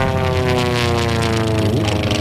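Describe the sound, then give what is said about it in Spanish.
A small propeller plane takes off for a flight over the Marquesas Islands. Its loud, steady droning engine hum carries strong harmonics, and the tone shifts slightly near the end. “Oba, ya va a despegar, venga. Agárrate, ponte el cinturón.”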